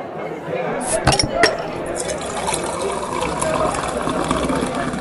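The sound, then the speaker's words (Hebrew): Beer poured into a glass in a brewery tasting room in Bamberg: a couple of sharp glass clinks early on, then a steady gurgling, fizzing stream of liquid that carries on to the end. “אז אוקיי, אם חם לך, בואו נצא להפסקה, נשתה איזה כוס בירה לטייסטינג רום ונחזור אחרי זה.”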